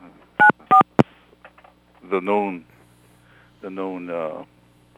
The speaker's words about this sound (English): Is that the CIA tapping into our phones there? No, that's me tapping my own phone.